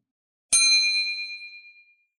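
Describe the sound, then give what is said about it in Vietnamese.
A magical bell box in a fantasy tale rings with one clear, bright, high-pitched ding. The lone tone shimmers and fades away over about a second and a half. “Hộp hoang linh đột nhiên kêu vang.”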